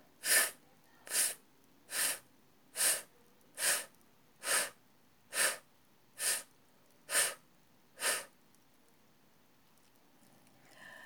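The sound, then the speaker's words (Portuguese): A voice does a speech exercise, exhaling ten short, evenly spaced F sounds, each a soft hissing puff separated by quiet pauses. “Vamos fazer agora com F de faca. Solte o ar, inspire e solte um F interrompido.”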